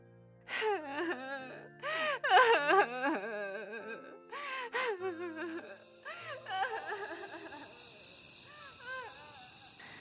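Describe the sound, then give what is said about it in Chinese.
A voice imitates a beaver sobbing in a children's story set in a forest, with a series of quavering, moaning wails and gasps. The cries gradually trail off into softer, fainter whimpers. “海狸的啜泣声在宁静的森林中回荡着。”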